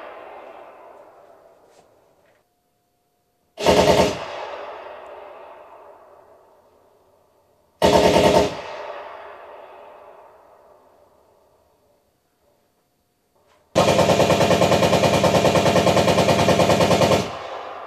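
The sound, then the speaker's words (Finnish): Loud recorded machine gun fire from wartime defensive line nests: two short, sharp bursts, each trailing off in a long, fading echo, then a longer sustained burst of roughly four seconds. “miten oli asemasodan aikana puolustuslinjoilla konekivääripesäkkeitä. Ja jotta me saadaan mahdollisimman aidosti tuntea se ja kuulla, millä tavalla tämä homma on toiminut. Mä oon kerännyt tämmöisiä ääniä ja pystyn ohjailemaan sitä tällä tavalla.”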